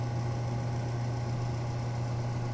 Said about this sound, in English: Maybe the fan in this one isn't quite as strong, like it doesn't spin as hard? Because this one's a lot quieter.